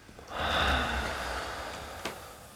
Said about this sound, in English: We take one deep breath in. Let go.